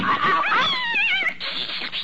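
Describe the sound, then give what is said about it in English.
A cat gives a long, drawn-out meow with a wavering, sliding pitch, loud and heard on its own. “You cat, you! Don't you dare go in Dr. Gillespie's office. Meow.”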